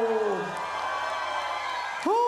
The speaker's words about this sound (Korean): 자 큰 박수 함성 다시 한번 해주세요